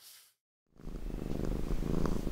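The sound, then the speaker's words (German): Cat purring inside a hardware store: a low, steady rumbling purr that starts after a brief noise and a short silence, then continues evenly and faintly to the end. “In Plön, da gibt es eine Katze, die schreckt das alles überhaupt nicht ab. Die lebt in einem Baumarkt.”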